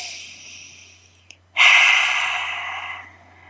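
A single deep inhale taken during a guided pause, a loud, airy breath in lasting about a second and a half that slowly fades, heard alone after near-silence.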